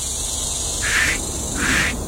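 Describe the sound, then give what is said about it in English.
Cicadas buzzing in summer, a steady high-pitched drone with two louder rasping pulses swelling over it, with no talk. “Can you hear it? It is what summer sounds like. For me, you know, I'm sure, no doubt, it's probably annoying to some folks, but to me, I can hear summer by hearing cicadas.”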